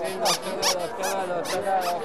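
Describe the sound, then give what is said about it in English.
Squeaking toys and noisemakers at a market, among them multicolored squeaky cats, dogs, tigers and parrots, give several sharp, high squeaks in quick succession over a steady bed of voices and bustle. “There are lots of noisemakers, multicolored squeaking toys, cats, dogs, tigers, squeaky parrots.”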